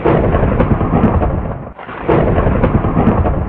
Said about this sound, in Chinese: 紧接着好像黄豆那么大粒的雨点密密麻麻地落下来，接着天空 又闪电又行雷，